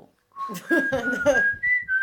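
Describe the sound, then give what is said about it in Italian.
Someone whistles an old TV theme tune in a few clear, sustained notes that shift in pitch, moderately loud and alone. “comunque per fischiettare un antico tema, un X-Files così.”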